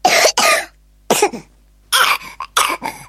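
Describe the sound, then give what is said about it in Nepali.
A child coughs with a rattling chest, giving harsh, repeated coughs in several clustered bursts separated by short silences. “कस्तो धेरै खोकेको नानीले, छातीमा घ्यारघ्यार आवाज आएको पनि सुनिरहेको छ त, के भयो?”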